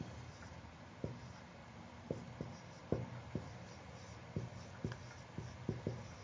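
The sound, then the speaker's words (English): Handwriting with a pen on paper: faint, soft scratching with a series of irregular light taps and strokes over a quiet background hiss. “you notice I can't write and talk at the same time. That's why I go silent on this thing.”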